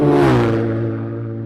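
A racing vehicle passes on a road racing circuit, its loud engine holding a steady, buzzing note that fades gradually over the short clip.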